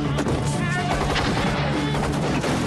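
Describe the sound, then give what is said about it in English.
Battlefield explosions and gunfire around troops in poppy fields, with mortars being loaded and fired: a dense, loud barrage of booms and sharp cracks that never lets up. “The transporter travels through huge pools of smoke from explosions.”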